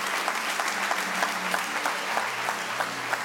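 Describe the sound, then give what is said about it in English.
An audience applauds at an Easter church service as members are welcomed: dense, even hand clapping that holds at a fairly loud level throughout, with no talking. “Come on, put your hands together and welcome your church family.”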